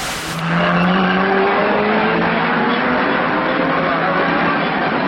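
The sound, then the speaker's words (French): Racing cars speed flat out through a narrow bottleneck past spectators massed behind a low concrete wall: a loud, continuous engine roar with shifting, overlapping engine tones that sweep and hold without a break. “Mais il en faut plus pour impressionner les pilotes qui abordent ce passage à toute vitesse.”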